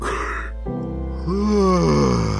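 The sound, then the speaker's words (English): A voice imitates a giant yawn, a long, drawn-out groaning tone with a wavering pitch that follows a shorter, lower vocal sound. “and lets out a giant yawn”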